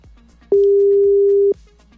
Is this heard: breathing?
no